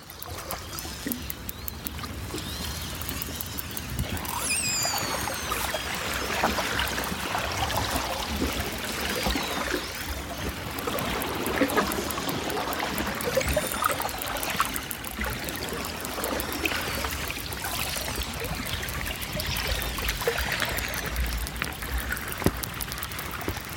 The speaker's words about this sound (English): And so I put my hydrophones into these cracks in the sea ice. Hydrophones are underwater microphones. And I made this recording as 20 or 30 orca pass by my hydrophones.